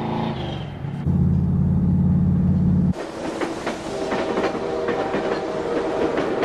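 A train moving along the tracks with a steady rumble that gives way to a busy, rhythmic clickety-clack of wheels over rail joints, loud and continuous with no talk.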